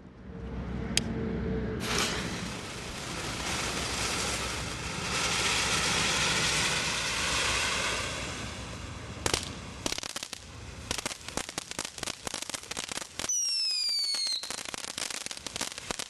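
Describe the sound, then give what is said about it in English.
An Apache Fire Dance Fountain firework going off, with a sustained loud hissing spray for several seconds. After a brief lull come many sharp crackles and pops, and a few whistling tones sound near the end. “This is called the Apache Fire Dance Fountain.”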